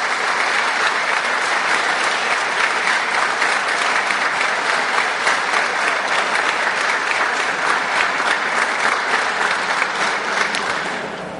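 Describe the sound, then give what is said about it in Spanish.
Loud audience applause at a session on indigenous peoples' defence of land and territory, honouring women from two communities; dense, continuous clapping holds steady for about eleven seconds and then tapers off at the end. “yo les pediría, disculpen, nuevamente un fuerte aplauso para las compañeras de San Miguel Ixtahuacán y del Estor.”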